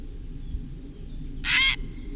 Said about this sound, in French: Ensuite, le héron cendré, le numéro 10, c'est un oiseau qui se porte pas trop mal partout où il y a des étangs, de l'eau et même dans les prairies